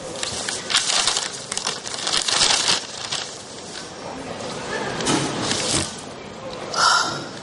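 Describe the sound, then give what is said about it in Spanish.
Wrapping paper torn hastily off a gift, heard as several bursts of crinkling, crackling paper with quieter rustling between them. “Irene le da el regalo a su ayudante que retira el papel presurosa.”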